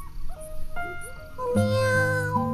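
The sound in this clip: Meowing of an orange cat: a few drawn-out, tonal cries sounding alone, moderately loud, with no talk.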